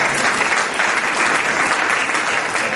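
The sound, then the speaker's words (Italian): Loud, sustained applause from an audience at a public gathering, clapping to honour a journalist, a thick continuous patter of many hands with no voices over it. “qui io vorrei fare un applauso ad Antonio Mazzoli”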